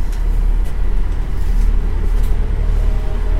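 City bus ride: a loud, steady low engine rumble with a faint higher hiss above it, continuous throughout with no clear breaks.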